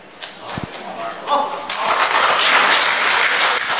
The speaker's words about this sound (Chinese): 今天您鼓掌了，不能白欢迎。